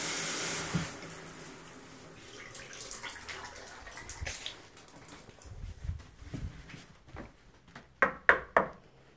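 Shower water runs as someone rinses off: a broad hiss that is strongest at first, then thins out, followed by a few sharp knocks near the end, with no voices.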